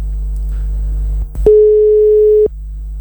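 A telephone tone after a call drops over a weak signal: one flat, mid-pitched beep lasting about a second, over a low steady hum.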